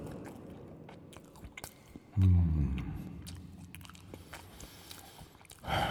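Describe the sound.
Chewing and eating a snack, a third piece: soft, quiet mouth sounds and small crunches, broken by one loud, low crunching bite partway through and another firm bite at the very end.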